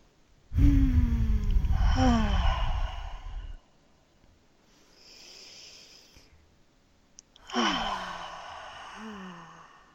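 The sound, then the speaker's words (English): Deep breathing, in through the nose and out through the mouth: two loud, slightly voiced sighing exhales with a quieter inhale between them, each breath long and slow, with no talk. “Go ahead and take an inhale through the nose and exhale out the mouth or nose. Just a couple more like that to create the space.”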